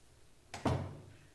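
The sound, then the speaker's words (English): A door being shut gives a faint click quickly followed by a soft, low thud, and then the sound fades back into quiet room tone. “I'm gonna close this door. I know you don't like that. I think somebody may be sneaking in.”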